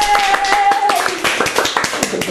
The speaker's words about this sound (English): I don't know why he's clapping either.